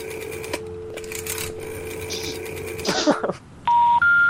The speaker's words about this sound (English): currently we are having technical difficulties, I have to do a dial-up.